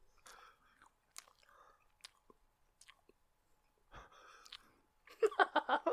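Close chewing and biting on empanadas. Faint wet mouth sounds and soft breaths build to a run of louder, rapid chewing bursts at the end.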